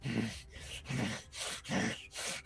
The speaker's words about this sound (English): Just breathing heavily.